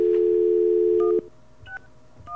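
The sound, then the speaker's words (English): A telephone dial tone: a steady, loud, low hum holds for just over a second, then cuts off and gives way to a few short, higher dialing beeps. “Okay, we have our dial tone.”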